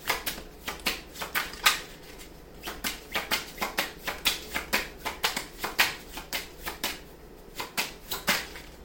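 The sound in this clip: Tarot cards shuffled by hand: a long run of crisp, papery flicks and snaps in an uneven, quick rhythm, with no talk.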